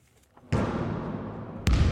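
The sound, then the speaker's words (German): A basketball bounces as reservists play at Berlin's Julius-Leber-Kaserne. Two heavy thuds sound, with a lingering wash of noise between them. “Einige spielen noch schnell Basketball.”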